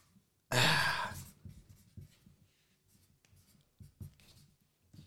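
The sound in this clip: Pen scratching as a name is written by hand: one loud, rough stroke, then a run of faint, short scratches and taps with only a little breathy voice.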